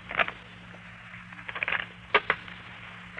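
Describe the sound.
Fortune-telling playing cards being shuffled by hand, heard as a few brief papery riffling bursts of crisp flutter with short pauses between them.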